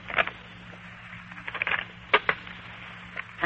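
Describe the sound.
Fortune-telling playing cards being mixed by hand give a few soft, brief riffling taps and clicks, faint and scattered over quiet background noise.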